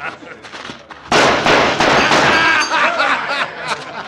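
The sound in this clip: A gunshot fired at a church weather vane gives one sharp, loud bang, followed by a sustained noisy wash. Quieter sounds come before the shot.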